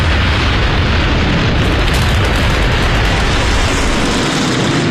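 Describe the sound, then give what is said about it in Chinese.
A dense, loud roar of explosions and aircraft engines from Japanese planes bombing Pearl Harbor, a continuous churning rumble with no separate blasts standing out. “伴随日本飞机的轰炸声，美国宣布加入二战。”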